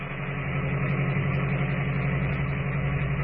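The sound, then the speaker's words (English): An old car engine chugs steadily up a mountain road at night. It makes a continuous, even, low drone at a moderate level, with no voices. “the stillness of the night is broken only by the steady chugging of the ancient motor as it struggles laboriously but steadily up the mountain”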